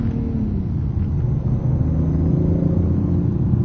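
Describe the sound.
A car engine set to manual sport mode gives off a deep, steady, growling rumble, loud and unbroken throughout, with no voices over it.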